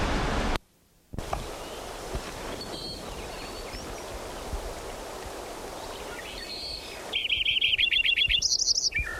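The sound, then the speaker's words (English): A Lincoln's sparrow sings in a valley in late June. Faint chirps sit over steady, stream-like background noise, then a bright, rapid song of repeated high notes rings out near the end. “Lincoln Sparrow number 10 continued.”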